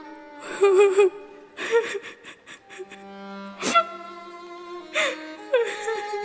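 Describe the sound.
A girl crying, with several wavering, high-pitched sobbing and whimpering bursts separated by short pauses, at moderate loudness with no clear words.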